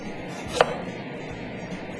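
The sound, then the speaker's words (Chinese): A knife slicing an onion into strips, heard as a single sharp, crisp cut that stands out clearly above a low, steady background. “现在我们切洋葱啊，就切丝。”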